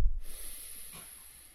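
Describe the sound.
One deep breath drawn in during a guided breathing exercise, a soft, airy, snuffling inhale that fades gradually, faint and alone with no talk.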